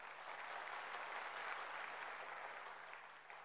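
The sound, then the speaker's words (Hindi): Loud applause from an audience at an event for a large spiritual organisation: dense, steady clapping that holds evenly for a few seconds and eases slightly toward the end. “हाँ जोर से तालियां बजा लीजिए”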